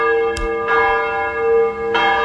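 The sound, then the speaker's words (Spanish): Church bells ring from the bell tower of the Basílica de Luján, a few loud strikes each followed by a rich, sustained metallic hum that carries between strokes. “Acá estamos con el campanario, así se relajan todo. Ahí va.”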